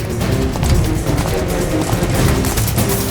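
Gunfire in a radio drama: a loud, sustained fusillade of many rapid, overlapping shots and booms runs without pause.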